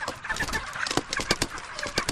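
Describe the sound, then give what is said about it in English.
Chickens clucking inside a dusty poultry farm house holding thousands of birds, many overlapping short clucks and squawks forming a busy, restless chatter at moderate level, with no voices. “Thousands of chickens zigzag, flap their wings, or climb over each other just to get out of the way.”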